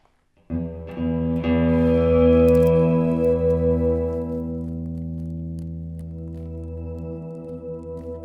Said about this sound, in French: Comme ça, vous décidez à quel volume se fait le petit son gelé derrière vous et à quel volume se font les notes que vous rejouez par-dessus.